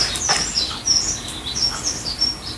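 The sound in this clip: Small bird chirping in a few high, sharp, quick tweets scattered over a steady hiss of background noise.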